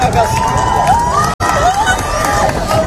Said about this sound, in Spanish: Aplausos, incluso lágrimas, el asombro de la gente ante una belleza inquietante, ante un fenómeno realmente hipnótico. Escuchábamos los gritos de la gente en la Torre de Hércules, en La Coruña